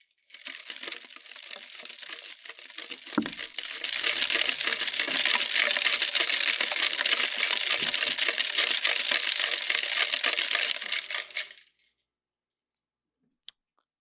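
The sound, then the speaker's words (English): Crushed ice swirled around in a plastic cup, a continuous gritty rattling and crunching that grows louder after the first few seconds, runs for about eleven seconds, then stops abruptly, followed by a single faint click. “This is ice being swirled around in a cup, plastic cup. Crushed ice.”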